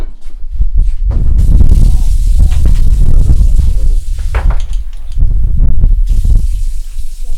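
Tap water gushes loudly into a sink while two glasses are rinsed, the flow splashing and changing in bursts as the glasses move under the stream.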